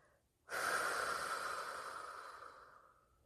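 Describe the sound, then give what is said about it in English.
A deep breath taken during a mindfulness exercise: one long, airy rush of breath that starts abruptly, swells briefly, then slowly fades over about three seconds, with no talking. “Let's just take a deep breath in through your nose. And hold your breath and out through your mouth.”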